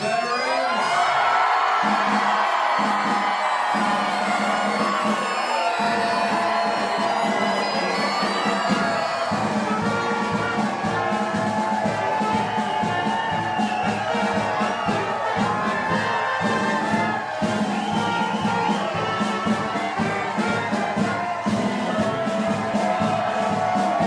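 A crowd cheers loudly to welcome veterans home, with whoops, shouts and sustained applause-like roar running continuously and staying at a high level throughout.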